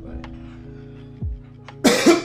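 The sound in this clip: Coughing and throat clearing from a tickle in the throat. A loud, harsh burst of a couple of coughs comes near the end over a low steady hum, after a brief rough throat sound.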